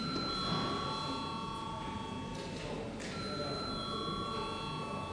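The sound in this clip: A bell rings in a parliament chamber before a vote, a sustained, fairly faint electric tone that breaks off briefly midway and then resumes steadily to the end.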